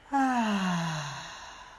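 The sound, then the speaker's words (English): A deep breath let out as a single voiced, sighing exhale. Its pitch falls gradually as it fades over about a second, heard alone with no talk. “Getting that stale air out of our lungs. Deep breath in and out.”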